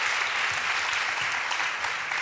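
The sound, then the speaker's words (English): Audience applause welcoming a speaker to the stage, dense and even clapping that holds at a steady level throughout. “Let's give him a hand.”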